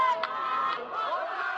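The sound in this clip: Crowd celebrating in the streets after a 3-0 football victory over Brazil, a dense, steady wash of shouting and cheering voices, fairly faint, with a couple of brief sharper shouts standing out.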